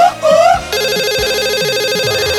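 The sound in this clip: A telephone rings with a loud electronic ringtone, a rapid warbling trill that repeats steadily and without pause through most of the moment.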